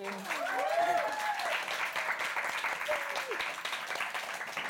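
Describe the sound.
An audience at a book launch applauds to welcome the guests, with dense, steady clapping throughout and voices speaking over it.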